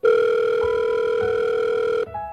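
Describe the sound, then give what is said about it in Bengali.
A steady electronic telephone tone sounds as a call is placed. One continuous tone holds for about two seconds, then gives way to a softer tone. “তবে তিস্তাকে বিষয়টা জানিয়ে রাখা উচিত, তাই তিনি তিস্তাকে phone করলেন।”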